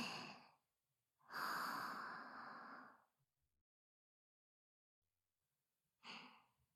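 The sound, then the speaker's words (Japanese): Slow, deep breathing in and out: a soft breath trailing off, a long airy breath of about two seconds, then another short breath. Quiet, with silent pauses between them. “吸って吐いて、”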